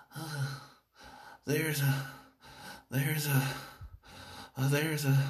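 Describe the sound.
Voice imitating the heavy, out-of-breath panting of an overweight man: several loud, voiced gasping breaths come in uneven bursts with short pauses between them.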